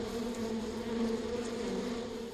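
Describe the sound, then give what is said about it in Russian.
A bee swarm buzzes in a steady, faint, low drone that holds without pause from start to finish. “В жопу укусил меня пчелиный рой. Ой!”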